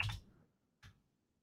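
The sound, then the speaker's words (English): Two quiet clicks of keys on a computer keyboard, one right after the other with a short pause between, heard alone with no talking. “Let me type it like this.”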